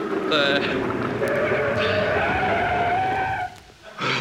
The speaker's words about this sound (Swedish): Stanna vid trottoaren här borta nu, ni snäller. Vid trottoaren. Nej, inte på trottoaren, vid trottoaren. Bromsa nu då, bromsa, bromsa.